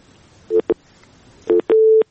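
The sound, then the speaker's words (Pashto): After a dropped call connection, a telephone busy tone plays: four steady electronic beeps in two pairs, with the last beep held noticeably longer. The tone is loud and clear over a low background hiss. “ستاسو اړیکه هم وشلې ده.”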